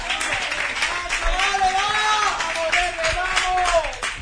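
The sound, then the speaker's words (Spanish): Football crowd ambience from Punta Umbría home fans during a tense playoff match against Ayamonte: a steady, dense din of clapping and many voices, with sustained, wavering chant-like tones rising above the roar throughout. “Ahí vemos el sonido ambiental que se viene arriba, el público de Punta Umbría.”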